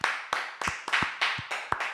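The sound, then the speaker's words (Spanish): Applause as hand clapping for a group that won a silver medal in a fair-play contest: a steady run of sharp, evenly spaced claps, roughly three per second, with no talk. “Un aplauso a esta peña, tío.”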